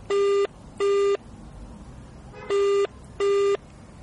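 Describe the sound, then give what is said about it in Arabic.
Telephone ringing tone on an outgoing call to a radio guest: four short steady beeps arranged in two pairs with a pause between the pairs, with no talk. “يلا بينا نتصل بيه وضربة حظ يا رب إن شاء الله يعني يرد علينا ونشوف كده المكالمة”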